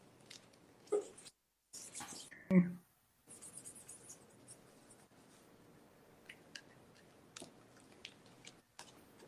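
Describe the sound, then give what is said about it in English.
Pen scratching as a signature and message are written in silver marker on an 8x10 photo with glass. A few brief, faint strokes sit over low background noise. “He would like it in silver. And if you can write, the end is near, fall and pray, and your signature.”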